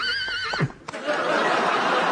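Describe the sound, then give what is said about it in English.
A horse neighs in a single quavering whinny that starts high and drops sharply, followed by a steady rushing noise. “And here is the horse.”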